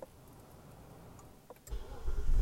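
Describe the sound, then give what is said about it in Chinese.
A car engine starts after a quiet stretch with a few faint ticks, bursting into a loud low rumble near the end as the driver restarts the car because it is getting hot. “等下有点热，我要我要再发动一下车子了。”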